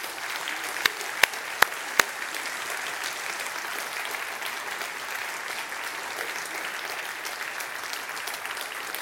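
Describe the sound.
A church audience gives steady applause welcoming guest speakers to the stage. A few sharp individual claps stand out early, then the clapping holds even and moderately loud throughout.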